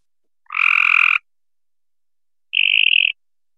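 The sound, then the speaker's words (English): A mockingbird in North Carolina mimics frog calls with two separate croaking trills: a rich, buzzy first call, then a purer, higher second one after a pause. “This is a mockingbird from my home turf here in North Carolina, and we have a different set of frog species.”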